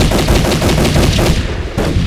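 Rapid automatic gunfire rattles in a sustained, loud burst of evenly spaced shots during a fight at a stairwell door, the string of reports continuing with barely a pause before a brief break near the end.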